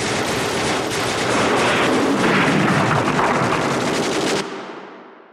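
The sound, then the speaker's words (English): A firing squad's rifle volley erupts as a dense, continuous roar of gunfire lasting about four seconds, then cuts off into a brief fading tail. “Firing squad! Prepare to execute the prisoner! Squad, you can't leave me like this! Ready! Aim! Fire!”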